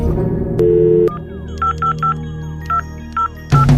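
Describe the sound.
Telephone keypad dialing tones: a longer steady tone, then five short electronic beeps at uneven intervals, fairly loud over a faint background, ending with a burst of other sound.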